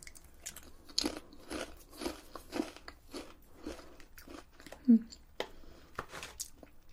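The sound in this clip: Thai snack crisps, baked-style like lower-fat crisps, crunch under biting and chewing: many crisp, crackly crunches in an irregular rhythm, with one louder bite standing out late on.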